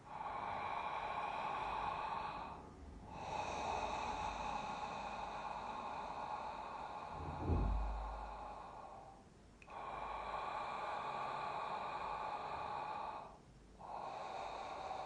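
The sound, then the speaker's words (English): Deep breathing in and out through the mouth: long, steady airy breaths that run on with a few short pauses between them, loud and alone with no talk. “And just begin inhaling, exhaling. You can begin in and out through the mouth.”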